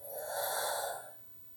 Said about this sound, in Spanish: Inhala profundo. Y por tu boca sueltas.